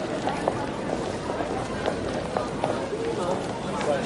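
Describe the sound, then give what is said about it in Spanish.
Running footsteps on a pedestrian street, a quick run of light slaps heard over a steady wash of street and crowd noise, the steps spread through the whole stretch without any clear beginning or end. “El chico se acerca corriendo por detrás.”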